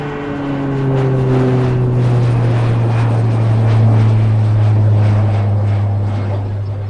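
An airplane taking off gives a loud, sustained engine roar that swells within the first second and then holds steady, with low droning tones that slowly drop in pitch.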